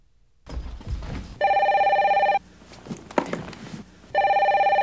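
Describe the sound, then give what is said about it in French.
A telephone rings twice. Each ring is a loud, bright, trilling burst of about a second, and soft rustling and handling noises fill the gap between them. “Écoutez Mireille qui répond au téléphone”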